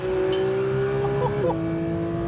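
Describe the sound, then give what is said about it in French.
A sports car's engine howls at high revs on a racetrack approaching a chicane, holding a steady, strong tone, then dropping abruptly in pitch at a single gear change into fourth partway through before continuing evenly. “Allez, 9000 tours, je passe la 4.”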